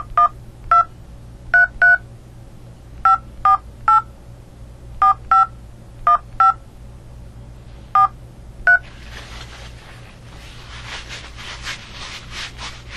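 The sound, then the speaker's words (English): Telephone keypad tones dialing a phone number: many short, crisp dual-pitched beeps in irregular groups over a low steady hum, followed by a stretch of rustling hiss. “Please enter the telephone number you wish to dial now.”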